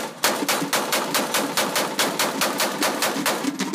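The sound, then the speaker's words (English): Authentic Civil War Gatling gun firing: a rapid, steady train of many loud, sharp shots in even rhythm, unbroken for several seconds. “When Paul asks if anyone wants to fire an authentic Civil War Gatling gun, my hand flies up.”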